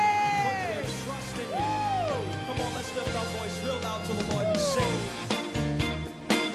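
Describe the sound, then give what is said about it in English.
Church audience shouting and cheering during a praise service, with loud yells and whoops that rise and fall in pitch, layered over a steady low drone for the whole stretch. “I want you to give a round of applause to the Lord. Amen. And to be in his house, give a shout.”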